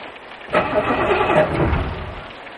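A car engine cranks but fails to start: after a brief quiet moment a loud, rough, grinding churn begins abruptly and carries on, easing slightly toward the end, with no talk.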